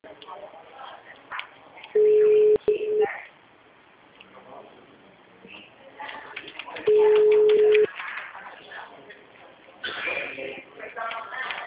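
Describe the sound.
Telephone line tones sound while a call is being transferred: two steady, mid-pitched beeps about a second long, several seconds apart, with faint voices and line noise in between.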